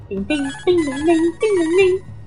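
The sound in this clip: A voice imitates a short harp tune played by a bard in a medieval role-playing game, mimicking a collect-call telephone tone: a few sung, wavering notes with small pitch dips, each held briefly with short gaps between them.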